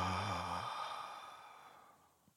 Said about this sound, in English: Take another deep breath in and breathe into your sacral chakra.